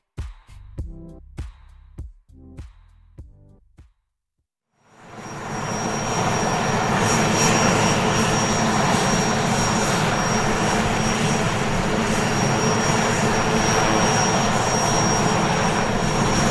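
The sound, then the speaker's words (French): A Puma military helicopter arriving in northern Mali: after a few brief sharp sounds and a short silence, a loud, dense turbine and rotor roar swells in and holds steady to the end. “C'est notre hélicoptère qui arrive. Oui, voilà, c'est l'hélicoptère, donc le Puma qui va nous amener sur la zone des opérations.”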